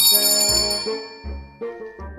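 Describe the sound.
A bell rings in a dramatized stage comedy: several metallic strikes leave sustained, shimmering tones that overlap and decay between strokes, with no voices.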